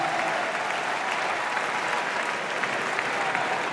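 An audience applauds the club president with steady, dense clapping. It stays loud and even from start to finish.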